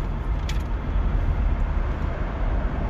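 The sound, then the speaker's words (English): Road noise inside a moving car: a steady, loud low rumble with a constant hiss over it, unbroken throughout and without voices. “sorry for the noise. Like I said, you are in the car with Joey Two Wallets.”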